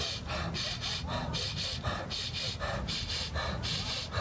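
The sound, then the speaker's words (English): Fast rhythmic breathing: quick double inhales through the nose, each followed by a sighing exhale through the mouth, repeated many times in a steady brisk rhythm, fairly faint. “we take double inhales in through the nose. And just sigh out through the mouth, letting it fall out. And this time really fast.”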